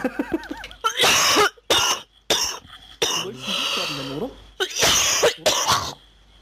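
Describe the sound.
A person coughs hard at a game night: several loud, harsh bursts of coughing with short gaps between, and people talking before and between them.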